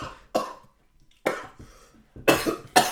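Someone coughs in several sharp, harsh bursts after a drink goes down the wrong way. The coughs come in uneven clusters with brief quiet gaps between them.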